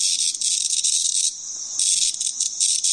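An insect's courting call: a loud, continuous, high-pitched buzzing trill with a fast pulsing texture. It dips briefly midway, then returns at full strength, with no voices.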